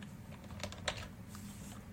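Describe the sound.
Typing on a computer keyboard while entering code, a few faint, crisp keystrokes clicking irregularly over a low, steady hum.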